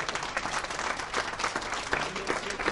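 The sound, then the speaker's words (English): Applause from the audience at the Safe Haven for Donkeys 10th annual meeting after the opening speeches: dense, steady clapping from many hands that holds at an even level throughout. “Fine round of applause there for some of the opening speeches that we've been actually having at this Safe Haven for Donkeys 10th annual meeting.”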